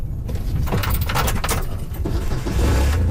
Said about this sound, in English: We hop in a quad and drive to a wetland on the property.